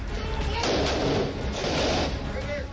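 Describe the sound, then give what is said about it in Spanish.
Automatic-weapon fire from AK-47 and M4 rifles in a battle with Mexican marines, a dense unbroken roar of overlapping shots and crackle with no gaps, holding loud throughout. “Son disparos con armas automáticas.”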